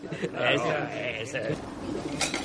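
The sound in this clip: Pigeons cooing as they peck at the end of a tablecloth spread on the ground after a meal: soft, low, rolling coos, brief and fairly quiet, mixed with a voice.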